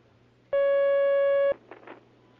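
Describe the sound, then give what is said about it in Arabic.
A telephone line tone as a caller connects: one steady electronic tone with bright overtones that holds for about a second and cuts off cleanly, followed by faint rustling noise. “معنا مكالمة الآن على الخط.”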